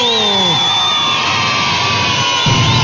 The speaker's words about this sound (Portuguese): palmas pra todo mundo